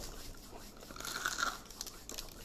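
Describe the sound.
Crisp crunching of a crunchy snack being bitten and chewed, a quick run of many faint crackling bites and grinding chews with no talk.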